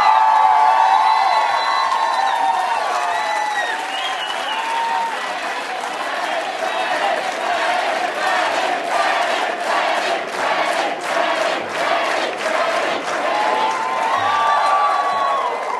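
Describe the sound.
A political rally crowd cheers, whoops and applauds in a loud, unbroken roar of welcome for a Senate leader, with shouts and claps rippling through it the whole time.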